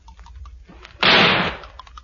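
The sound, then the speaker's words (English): A single gunshot fired at a creature in a garden: one loud, sharp blast with a short, fading tail. Faint background noise sits on either side of it. “Put your fingers in your ears. I'm going to shoot the top of it.”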